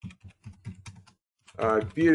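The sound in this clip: Keystrokes on a computer keyboard as someone types in capital letters, a few quick low taps in an irregular rhythm, followed by a person speaking.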